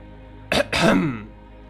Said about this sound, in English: the sound of someone clearing their throat.